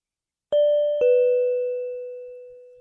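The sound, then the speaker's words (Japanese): An apartment door chime rings a two-note ding-dong, each tone struck once, the second slightly lower, both left ringing and fading slowly. “アパートのチャイムが鳴った。”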